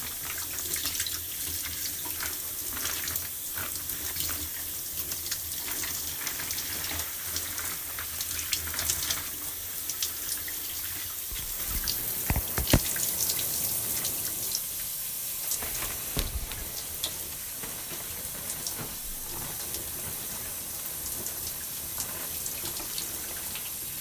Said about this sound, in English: braids are kind of heavy when they're wet, so just be careful. I'm washing them.